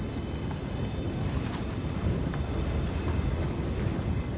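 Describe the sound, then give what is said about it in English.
Wind rushing steadily as a broad, constant hiss and low rumble, fairly faint and without distinct gusts. “Yes, you can hear the wind a little. If you listen.”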